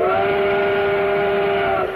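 A train whistle sound effect for model trains gives one loud, steady, chord-like blast that holds for about two seconds before easing off slightly at the end.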